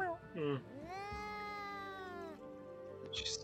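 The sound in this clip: Angry cat meowing while being hand-fed small pieces of meat: a short meow followed by a long, drawn-out, harmonic yowl, loud and insistent.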